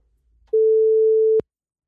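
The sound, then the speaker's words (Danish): A telephone line rings out during a live morning radio call to a listener: one steady mid-pitched tone lasting about a second, ending in a sharp click. “Vi prøver at ringe til en lytter.”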